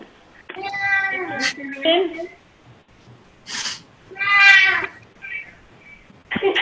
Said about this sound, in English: that was my cat saying yes